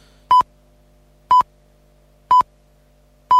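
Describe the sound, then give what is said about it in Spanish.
Four short electronic beeps signalling that time is up, each a clean, mid-pitched tone, evenly spaced about one second apart against near silence. “estamos en el tiempo de descuento, el pitido es el, me lo pone ahí Mario para fastidiarme, no para fastidiarme tampoco, pero para decirme, te estás pasando ya”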